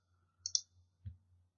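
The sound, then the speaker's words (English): Faint mouse clicks on an OK button: two quick clicks close together, then one more a moment later, alone against near silence. “And I click OK.”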